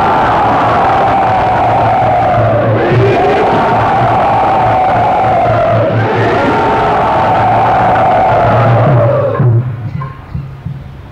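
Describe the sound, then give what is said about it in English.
A crowd cheers and whoops loudly to welcome a speaker at a gathering, a sustained roar of voices with rising and falling shouts that holds for about nine seconds before quickly dying away. “Let us all very enthusiastically welcome Srila Kavi Chandra Maharaj to Shivaji.”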